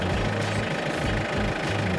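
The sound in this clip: A farm tractor's engine running as the machine reverses with the brake pressed, a steady low rumble with a knocking throb and no voices.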